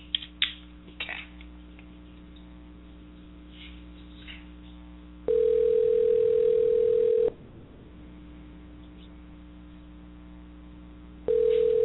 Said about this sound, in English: I'm going to have to dial him from the switchboard, so you're going to hear me, you'll hear it. The dial pad, but no worries.